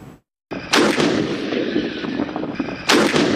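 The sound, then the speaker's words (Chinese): Heavy gun blasts from tanks during live-fire gunnery drills in a desert in Xinjiang: after a short silence, sharp booms break out and a rolling rumble follows, then another loud blast near the end. “大漠戈壁，新疆军区某团正组织坦克分队展开实弹射击考核”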